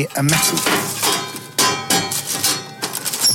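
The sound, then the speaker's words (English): A metal dish is handled and struck: several bright clanks and clattering rattles in irregular bursts, each ringing out briefly, with scraping between hits. “A metal dish.”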